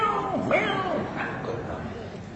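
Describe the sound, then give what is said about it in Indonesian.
A human voice imitates a kitten mewing, producing a few short, thin, wavering mews with sliding pitch, voiced continuously without pause. “Anak kucing.”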